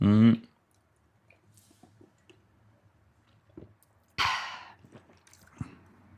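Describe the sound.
Soft slurping sips and wet mouth clicks come from someone tasting a Saint-Feuillard Grand Cru drink. A brief voice opens, quiet sipping and smacking follow, and then a loud, breathy exhale.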